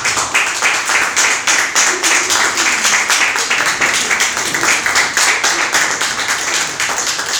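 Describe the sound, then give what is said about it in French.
Audience applause and ovation welcoming an author, many hands clapping in a steady, loud, dense patter throughout with little else heard. “on va se lever pour accueillir comme ça l'auteur. Sous vos ovations, s'il vous plaît.”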